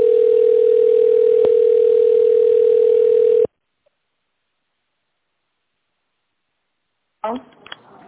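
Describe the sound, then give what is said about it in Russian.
A steady, loud telephone tone sounds while a call is transferred. It holds at one pitch for about three and a half seconds, cuts off into silence, and brief sounds follow near the end. “Одну минуту, перевожу вас.”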